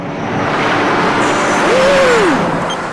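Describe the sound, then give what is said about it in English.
A speeding car drives past as a broad road roar that swells toward a peak near the end and then begins to ease, with a brief tonal whine gliding up and back down as it passes. “Freddy opens his eyes and recognizes the driver of the speeding car.”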